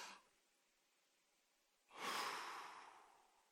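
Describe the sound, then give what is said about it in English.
A group in a cafe takes a deep breath together: a faint brief breath at the start, a quiet pause, then one long audible exhale that rises quickly and slowly fades away. “Can we just take a deep breath?”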